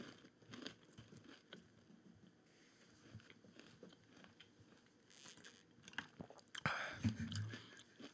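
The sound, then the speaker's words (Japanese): Someone chews a dry, crumbly snack, a faint stream of soft irregular bites and crunches that grows louder near the end. “あの差し入れ時々ねいただくのいいんですけどもパサパサの食い物やめてもらっていいですか”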